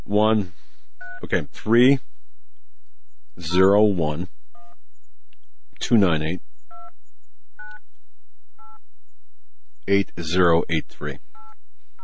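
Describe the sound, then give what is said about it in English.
Touch-tone keys sound as a phone number is dialed: several short, clear dual-pitched beeps come one at a time between bursts of talk, with a person speaking before and after the dialing. “We're going to call the number that appeared on the caller ID now.”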